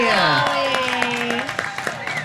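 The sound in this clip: An audience cheers for Dolly Parton, with a drawn-out shouted call rising over the crowd, followed by scattered claps and cheering that carry on to the end.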